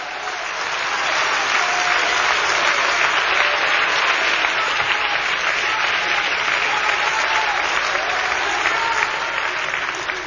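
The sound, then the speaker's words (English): Sustained applause from a large group of worshippers during a church sermon, swelling in over the first second or two, then holding a dense, loud, even roar of clapping before easing slightly at the end. “what you hear is the eternal sounds of a praising, clapping, singing people”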